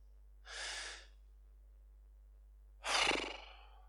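Slow, deep breathing with no talk: a soft, airy breath of about half a second, a long quiet pause, then a louder, fuller breath that fades out gradually.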